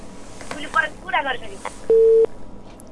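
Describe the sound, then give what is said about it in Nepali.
A steady, mid-pitched phone line tone as a caller's line drops on a community radio phone-in. It sounds once, briefly and evenly, after a few words of speech. “कोही साथी हुनुहुन्थ्यो फेरि पनि छुटेर गइसक्नु भयो, phone line disturb हो या साथीहरूले नै काटिराख्नु भएको छ त्यो थाहा भएन”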